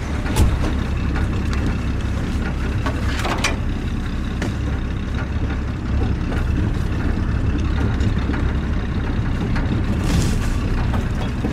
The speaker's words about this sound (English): We drive on, the bush closing in around us.